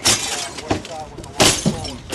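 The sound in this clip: Window glass of a flooded house is smashed in from a boat, giving a few sharp, loud shattering crashes with crunching debris between them. Voices are also heard.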